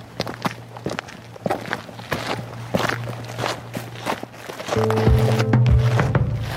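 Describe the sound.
People walk outdoors from a harbour across a small fence onto a salt meadow on Livø, Denmark. Many soft footfalls fall in an uneven, continuous rhythm over a low, steady hum.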